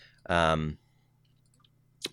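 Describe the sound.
A single sharp computer mouse click sounds after a short voiced utterance, crisp and brief against a quiet background with a low steady hum.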